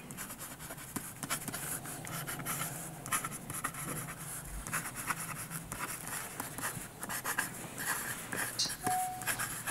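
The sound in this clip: Handwriting on a watch warranty card: a pen scratches across paper in quick, irregular strokes with small ticks, a soft, steady scraping throughout.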